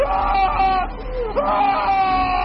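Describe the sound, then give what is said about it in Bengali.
A blood-curdling human scream in the night, a continuous high, wavering wail lasting the whole moment, with a brief dip and catch in pitch midway before it carries on. “অনেকক্ষণ পর ফ্র্যাঙ্কের ঘুম ভাঙল এক রক্ত জল করা চিৎকারে।”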